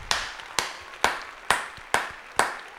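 Sharp claps at a steady, even pace, about half a second apart, greeting newly welcomed supporters. The single crisp strikes stand alone with no talk or crowd noise.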